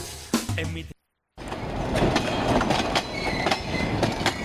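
A train sound effect with the rhythmic clickety-clack of a moving train's wheels. It starts after a short silence and runs as a steady clatter of repeated knocks at moderate level.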